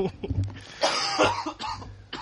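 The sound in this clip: A man coughs in a few rough, harsh bursts close together, with some talk mixed in around the coughs.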